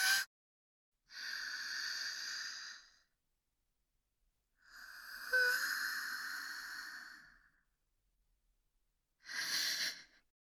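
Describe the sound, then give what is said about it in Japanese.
Someone takes deep breaths to calm their nerves. Slow, long, airy inhales and exhales come one after another, a few in all, quiet and alone, with pauses of silence between them. “落ち着かなきゃ。深呼吸、深呼吸。”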